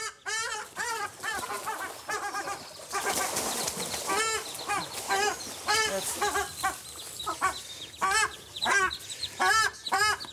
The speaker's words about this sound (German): Jetzt haben wir erstmal den Erpel raus. Der Erpel soll raus, damit man an die Küken kommt.